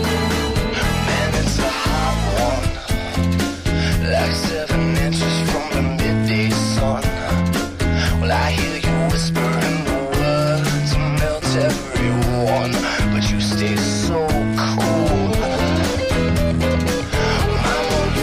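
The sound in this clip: A Latin rock hit from 2000 plays loud and continuous as full-band music with a driving, steady percussion groove throughout and no talk over it.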